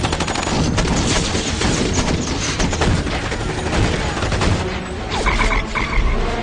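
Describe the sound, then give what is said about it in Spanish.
Dense, sustained gunfire with rapid machine-gun bursts and overlapping shots fills a radio-drama battle scene right after an order to open fire, loud and continuous from start to end. “¡Ya oyeron al presidente! ¡Abran fuego!”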